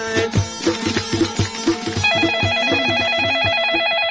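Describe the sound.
A warbling electronic telephone ring marks a listener calling in to a radio show. It comes in partway through and sounds over rhythmic, beat-driven music that plays throughout.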